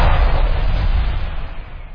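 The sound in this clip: Firecrackers set off for Diwali make a loud, dense, continuous crackling roar, with no separate bangs standing out.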